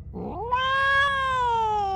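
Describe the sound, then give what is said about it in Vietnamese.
A black cat cries out in one long, drawn-out yowl. It starts low and brief, then rises into a loud, sustained, strongly tonal wail that slowly sinks in pitch. “Sau tiếng kêu thì phía bên cửa sổ, con mèo đen cũng đã xuất hiện và đang ngồi ở đó.”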